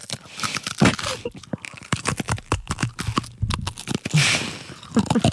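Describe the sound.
Close ASMR eating, with food crunched and chewed near the mic: many sharp crunchy, crinkly bursts follow each other in an uneven rhythm, loud and crisp.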